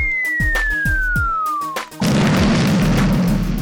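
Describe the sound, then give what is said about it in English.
Bomb explosion sound effect: a long whistle falls steadily in pitch over a rhythmic thumping beat, then a loud booming burst with a broad rumbling roar that continues to the end. “There you go. That was perfect. Big bomb to hear.”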